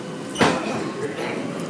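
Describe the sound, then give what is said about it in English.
Ambience at London Bridge railway station, a steady broad rushing noise with a brief louder whoosh near the start before settling back to an even background. “So welcome to the wonderful world of London Bridge Station. Somewhat later than usual. Security personnel tour this station 24 hours a day.”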